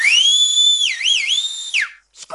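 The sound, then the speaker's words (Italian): A piercing whistle blown with two fingers in the mouth: a loud, shrill tone holds steady, warbles twice in the middle, then drops sharply and cuts off, followed by a brief faint rustle. “si mise 2 dita in bocca e lanciò un fischio lacerante trapanandomi i timpani”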